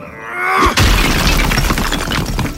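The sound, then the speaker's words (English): A fist smashing through a brick-and-mortar chimney: a rising rush ends in one loud, sharp crash, followed by a dense, sustained crumbling rumble of breaking masonry that stays loud to the end. “My hand cut cleanly through the brick and mortar of the chimney.”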